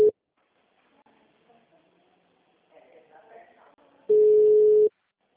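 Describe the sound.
A steady mid-pitched telephone tone after a dropped call: one long, loud beep near the end and the cut-off tail of another at the very start, with faint talk in between.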